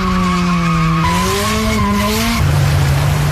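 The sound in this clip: Car tires squeal loudly as the car skids through a turn, a strong, sustained tonal screech whose pitch steps up and down a few times over engine noise.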